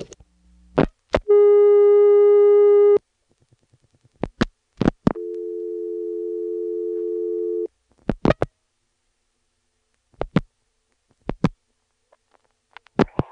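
Telephone line sounds after dialing a disconnected number: sharp clicks, a steady buzzing tone, more clicks, a second lower steady tone, then further scattered clicks.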